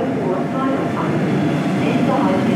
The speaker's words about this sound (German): Meine Damen und Herren, auf Gleis 3 fährt ein Regionalexpress von Münster nach Mönchengladbach über Essen, Duisburg, Krefeld.